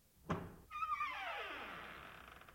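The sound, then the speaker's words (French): A door is opened: a dull thunk, then a long, quiet creak that slides downward in pitch and slowly fades. “Allez à la porte. Ouvrez la porte.”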